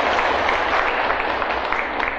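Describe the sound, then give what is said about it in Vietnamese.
An audience applauds during a Buddhist monk's dharma talk. Dense, steady clapping holds at an even loudness from start to finish. “Sao không vỗ tay cho nó đỡ mệt, đúng không?”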